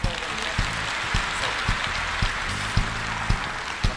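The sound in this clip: Applause for honoured performers at a stage event in Uzbekistan, a steady patter of clapping with a few sharper claps standing out. A voice speaks over it.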